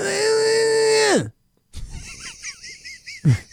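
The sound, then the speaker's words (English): A voice imitating a loud, guttural, painful groan, one long sustained strained tone that drops in pitch at the end, followed by softer voices and brief laughter. “Very loud noises. Yeah. Very loud, screaming, sort of painful kind of noises. Like guttural?”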